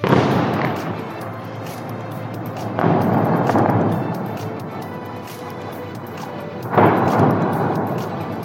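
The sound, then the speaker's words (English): Airstrike explosions in Beirut: three heavy, loud booms spaced a few seconds apart, each followed by a long rumbling decay, with no voices heard. “Another airstrike hits Beirut.”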